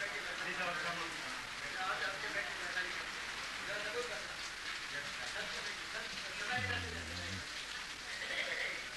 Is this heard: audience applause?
no